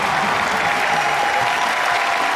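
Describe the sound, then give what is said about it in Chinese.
Audience applause at a stage comedy performance: dense, steady clapping that stays loud and even from start to end. “等什么呀？ 掌声啊！嗯、 又来了。”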